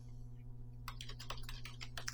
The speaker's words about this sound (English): I don't know how to type that. How do you spell his last name?